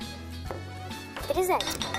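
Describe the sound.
A frying pan is set up on a stove to melt butter, heard as a few sharp metallic clinks and clatters of pan and utensils, with a brief cluster of ringing knocks in the middle, against faint kitchen background.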